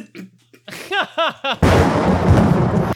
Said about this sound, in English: Oh. It looks like I've been shot.